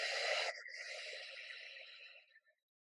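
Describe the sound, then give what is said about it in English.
A deep breath released as an audible exhale: one soft, breathy sigh that starts strong and gradually trails off over about two seconds. “take a deep breath in and audibly exhale out.”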